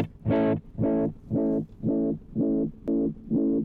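Repeating echoes from a vintage drum echo unit set to its darkest tonal extreme: seven evenly spaced, buzzy, distorted pulses with muffled highs. The first repeat sounds brightest and the later ones duller.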